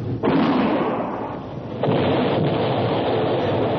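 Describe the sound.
Gunpowder charge exploding to launch a jam of logs: a loud, broad rumbling blast that swells at the start, eases slightly, then surges again in a second roar that holds steady to the end.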